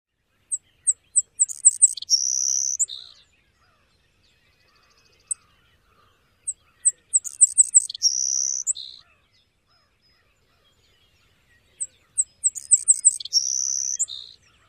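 Three bursts of sparrow song break the silence. Each opens with a few quick, sharp, high notes and then runs into a thin, insect-like buzz. A lone chip note sits between the first and second songs.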